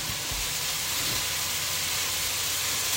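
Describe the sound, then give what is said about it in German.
Onions sizzle as they fry in a pan, a steady, even hiss of hot fat that holds unbroken for the whole moment with no talking over it. “Zwiebeln, tue es mit der Hand nochmal rauskratzen alles und dann kann ich es ein bisschen anbraten”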